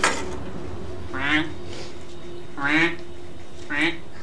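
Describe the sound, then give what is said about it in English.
A duck quacks three times in separated, nasal bursts, the second the loudest, over a low steady hum. “Let's take a look at this here duck. There we are.”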